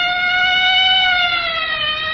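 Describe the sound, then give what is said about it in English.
A police patrol car siren sounds loud and sustained throughout, a steady bright tone that wavers only slightly in pitch, with no talk over it. “then we'll sit here and wait for the patrol car to pass.”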